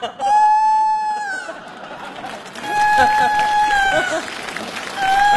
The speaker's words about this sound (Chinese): 这咋还打鸣呢？